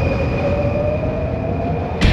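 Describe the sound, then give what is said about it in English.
A London Underground metro train rumbles steadily, with a sustained electric motor whine and a higher tone over a dense low roar. A short burst of noise comes at the very end. “tomamos la línea de metro que nos dejará en pleno Oxford Circus.”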